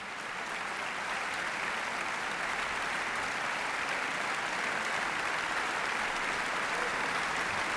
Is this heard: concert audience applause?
yes